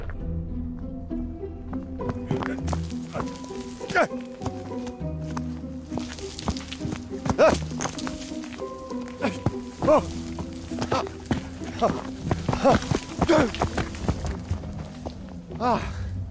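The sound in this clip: Footsteps crunch on loose gravel as someone goes down a bank beside a railway signal box, where part of the gravel has been washed away. The steps are many and uneven over a low, steady background.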